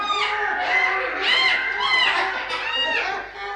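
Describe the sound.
Many colourful birds chirp and call in a greenhouse, their dense, overlapping, high twittering forming a continuous bright chorus.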